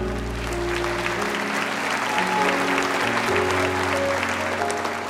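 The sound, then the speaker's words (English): An audience applauds to welcome guests onto the stage at a church gathering. The clapping is dense and sustained for several seconds over low, held musical tones. “Would you give him a hand?”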